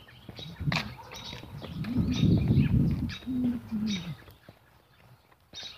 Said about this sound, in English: Lots of little birds chirping. I don't know if you can hear the birds chirping, but...